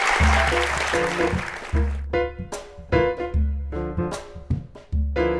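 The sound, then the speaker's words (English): An audience applauds three poets at a reading. A dense burst of clapping fades within about two seconds, and music with deep, steady low notes and brighter plucked accents takes over. “Give another hand for our three poets.”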